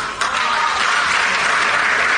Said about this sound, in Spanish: No era para que aplaudieran, pero bueno... El aplauso, no tan necesario para estos funcionarios